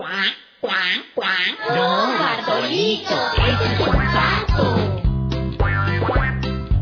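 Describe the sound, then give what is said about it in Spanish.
A voice imitates a duck's quacking in a children's story about a rooster. A run of nasal, bouncing quacks opens the sound, then music with a steady, thumping beat takes over. “¡Cuá, cuá, cuá! ¡No, Bartolito, eres un pato!”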